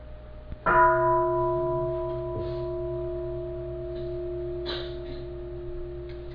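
A Buddhist temple bell struck once during a ritual. One clear strike sets off a long, steady ringing of sustained tones that fade slowly over several seconds.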